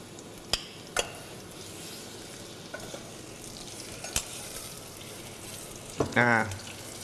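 Garlic and shallots fry in a pan with a soft, steady sizzle, broken by a few sharp clicks of a utensil against the pan and a brief warbling sound near the end.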